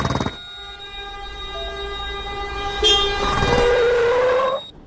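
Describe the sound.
A train horn blares in a steady multi-tone blast through most of the scene, growing louder partway through before cutting off abruptly near the end, with no voices.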